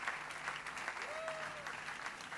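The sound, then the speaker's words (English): A church audience applauding to welcome a preacher: steady, dense clapping that holds at an even level throughout, with a faint voice underneath. “Let's put our hands together for the Lord Jesus as we welcome Dr. Oke Onuzo to bring the word of God to us.”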